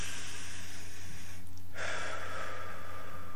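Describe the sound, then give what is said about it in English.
One deep inhaled breath, a soft airy rush lasting over a second that follows a quiet pause, faint and alone with no voices. “But let's take a moment and take a breath.”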